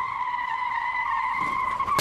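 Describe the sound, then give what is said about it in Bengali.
A small motor car speeds and crashes into a shop door. Tires give a long, loud, steady screech with a sudden hard burst of noise at the very end. “একটা ছোট্ট motor নারকীয় গতিতে সোজা এসে ধাক্কা মেরেছে দোকানের সামনের দরজায়”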